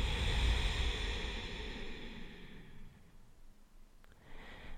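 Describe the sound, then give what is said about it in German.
Long, airy breaths through the nose: a soft hiss that fades gradually over about three seconds, then a shorter, quieter breath starting near the end, with no talking. “So atme über deine Nase lang ein und lang über die Nase aus.”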